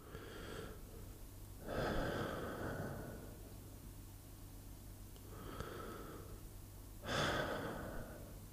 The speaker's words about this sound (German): Heute stehen sie für einen Atemzug still. Es ist das, was sie das Türrahmenritual nennen. 2 langsame Atemzüge gemeinsam.